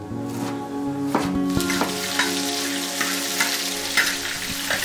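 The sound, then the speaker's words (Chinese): Cured pork and Chinese toon shoots sizzle as they are stir-fried together in a spring Yunnan dish. A loud, continuous frying hiss runs throughout, with a few brief clatters from stirring. “翠绿嫣红的春天香椿和刚刚过去的冬天腌制的腊肉混合炒在一起”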